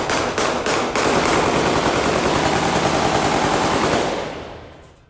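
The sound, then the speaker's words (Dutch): Heavy gunfire at a funeral: a few sharp separate shots open into a dense, continuous roar of rapid automatic fire, loud throughout before fading away over the last second. “deze begrafenis waar dit schieten zo extreem was”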